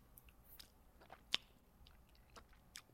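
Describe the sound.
Soft chewing of a big Albanese gummy candy: faint, moist squishing with a few small crunches and one sharper click, alone without talk.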